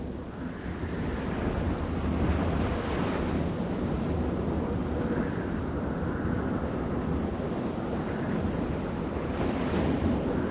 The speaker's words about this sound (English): Despite a fierce wind, Matt fishes off the beach.